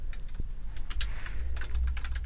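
Typing on a computer keyboard during an online search: quick, irregular clicks of keys at moderate loudness, with no talking.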